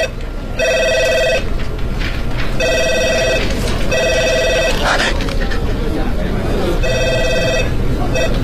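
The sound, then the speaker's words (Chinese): A telephone rings as a caller waits after dialing an office. Four evenly spaced ring bursts of about a second each sound over steady background noise. “便拨通了杨鸳鸯办公室的电话”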